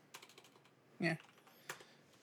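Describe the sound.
A few faint keystrokes tap on a computer keyboard. One louder clack lands in the middle, amid softer scattered clicks.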